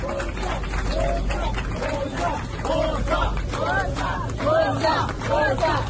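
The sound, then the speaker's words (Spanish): Crowd of migrants disembarking from a rescue ship: a dense, continuous babble of many voices with scattered shouts and calls rising above the steady hubbub. “Este es el sonido de los inmigrantes que desembarcaban.”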